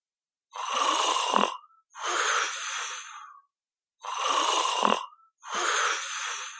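A man who is out cold snores loudly, with two heavy snores, each a raspy inhale ending in a low snort and followed by a long rough exhale, with silent pauses between them.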